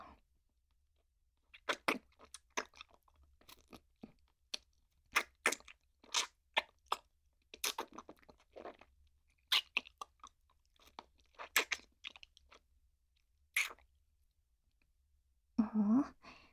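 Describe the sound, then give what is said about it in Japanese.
Hard candy being crunched and chewed: many sharp, brittle cracks and crunches come irregularly with quiet pauses between, all fairly faint. “この飴おいしい。”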